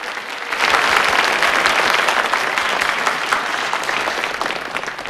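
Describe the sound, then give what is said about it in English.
Polite applause from a packed theatre audience after a stage magic trick. A steady, even wash of clapping starts after a brief quiet moment and continues at a fairly constant level. “The Crown Prince claps politely.”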